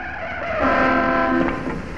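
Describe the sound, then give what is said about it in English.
A car horn blares during a near crash in an old film scene: one sustained, harmonic honk of about a second that rises out of steady background noise and then fades. “In keeping with the sexist attitude of the times, at this point the two women are shown almost causing a car crash.”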